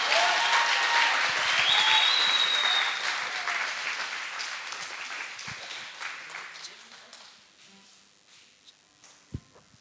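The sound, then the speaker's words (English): Audience applause welcomes a pastor to the platform. Loud, dense clapping starts at full strength, then gradually thins and fades toward the end, with voices mixed in. “So ladies and gentlemen, put your hands together as we welcome to the platform my father, your pastor, Pastor Chris.”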